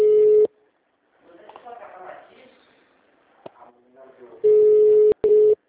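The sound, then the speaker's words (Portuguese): An unanswered telephone ringback tone sounds in long, steady, mid-pitched pulses at the start and again near the end, with voices talking in between. “Nossa, tá chamando esse tempo inteiro, ninguém atende lá.”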